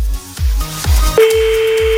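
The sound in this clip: Partway through, a telephone ring tone begins as a call is placed during a French radio show: a steady mid-pitched tone held to the end over a thumping music beat.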